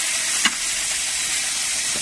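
A thick piece of meat fries in oil on a griddle, giving a loud, steady, hissing sizzle throughout, broken only by one faint click.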